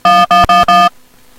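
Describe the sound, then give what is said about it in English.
Electronic telephone tones while dialing into a conference call through a phone system: four loud, evenly spaced bright beeps of equal length, then faint hiss. “All right, we are dialing in.”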